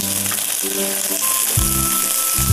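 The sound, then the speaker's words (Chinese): Sizzling of mung bean sprouts and tofu skin strips frying in hot oil in a wok, a loud, steady hiss with a couple of heavier surging bursts as the ingredients are stirred. “我们依次下入绿豆芽和百叶丝。百叶丝下锅里，”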